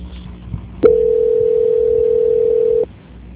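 A telephone tone plays during a call transfer: one steady, continuous mid-pitched tone lasting about two seconds, then it stops abruptly.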